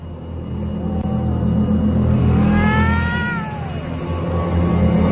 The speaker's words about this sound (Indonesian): Ketika aku lihat, memang ada seekor kucing hitam.